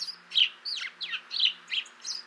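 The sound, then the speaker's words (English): House sparrows chirp in a quick series of bright, high, lively chirps, about six or seven distinct calls in an uneven rhythm, heard alone without voices. “The familiar birds were slipping into Holy Cross Church and interrupting the sermon with their exuberant chirping”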